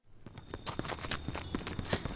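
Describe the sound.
Running footsteps as someone flees a scuffle: many quick, uneven thuds and scuffs in a fast rhythm, fairly faint.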